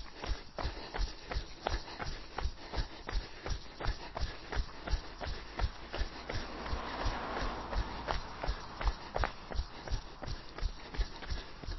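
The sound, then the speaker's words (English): Footfalls of a person jogging during an outdoor fartlek run, a steady, rapid, evenly spaced series of soft thuds continuing throughout over a faint background hiss. “Okay, and jog.”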